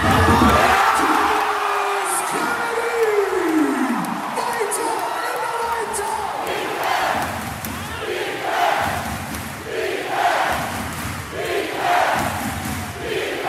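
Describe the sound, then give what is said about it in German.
About 6,000 mostly costumed carnival fans in an arena roar as the Baskets take their first lead, 82-81, in a basketball game, with loud sustained cheering, whoops and yells rising in repeated swells. “Auf einmal stand die Halle Kopf, die 6000 überwiegend verkleideten Jecken sind völlig ausgeflippt. Lass uns einfach mal kurz reinhören in die Halle im Moment der ersten Führung der Baskets zum 82-81.”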